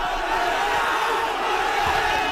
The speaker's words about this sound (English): Police swing batons among the crowd of mostly young people.